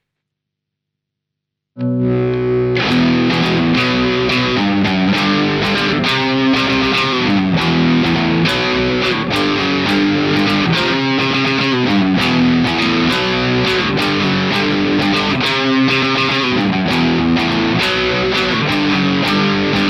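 An electric guitar riff with heavy distortion and a shimmering chorus-like effect starts after a short silence, then plays loud and sustained with a steady rhythmic pulse of chords and notes, with no voices.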